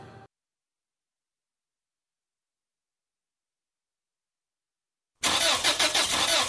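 A car engine is cranked and fails to start: a loud, rough, grinding starter noise bursts in after a long silence that follows a brief opening sound.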